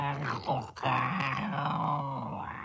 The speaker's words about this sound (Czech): Ne, to je popravdičkej medvěd.